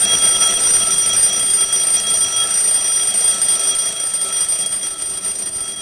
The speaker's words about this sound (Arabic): وبدأت أسمع صوت جرس المنبه